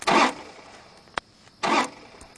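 An SUV engine is being hotwired and tried: two short, loud bursts of starter cranking, separated by a pause with a brief sharp click. No voices.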